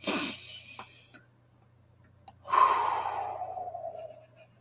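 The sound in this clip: A deep breath taken together as a group in a guided breathing exercise: a short breathy sound near the start, then a longer, louder sighing exhale that slowly fades, with no talk over it.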